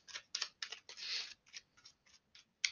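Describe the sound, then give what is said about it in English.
Tarot cards being pulled and shuffled: a faint run of short, crisp papery flicks with one longer rustling swipe in the middle, and no voices. “Let me pull some cards.”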